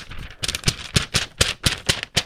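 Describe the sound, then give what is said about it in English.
Paper being rattled and shaken, giving a quick run of crisp, crackling bursts in a steady, uneven rhythm, with no talking. “She said, he loves when you rattle the paper.”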